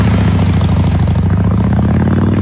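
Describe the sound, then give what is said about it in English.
A Harley-Davidson motorcycle engine idles with a loud, steady, low rumble and a deep, even throb, heard alone without voices. “Boy, that bike sounds good. Are you aware of the fact that Harley-Davidson will take anyone to court that tries to duplicate”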